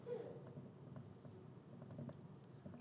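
Faint scratchy strokes of writing on a board, a soft continuous patter of marks with small taps as the words are written.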